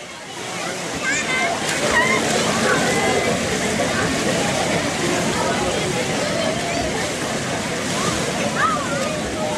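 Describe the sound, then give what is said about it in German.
Water splashes and voices fill the outdoor swimming pool at Freibad Bürgerpark in Braunschweig, a dense, continuous mix of sloshing and crowd chatter with no break. “So oder so ähnlich klingt es ab jetzt wieder im Freibad Bürgerpark.”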